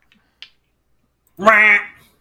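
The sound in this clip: A human voice imitates a mean-spirited duck quack: one harsh, nasal, buzzy squawk lasting about half a second, loud and alone, preceded by a faint brief click.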